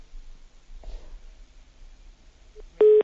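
Telephone line tones as a caller is connected to a call-in line: a faint blip after near silence, then a loud, steady, buzzy tone burst right at the end.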